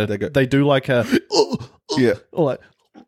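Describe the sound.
A voice imitates a stabbed person in a war movie choking and coughing, making several strained, throaty bursts with short gaps between them.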